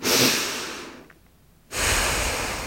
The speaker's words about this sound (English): Deep breath in and out.